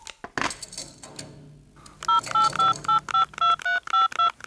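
Touch-tone dialing on a telephone as a handcuffed man calls his lawyer: a quick run of about ten clear, evenly spaced keypad beeps, each a steady two-tone pitch, coming after a short clatter.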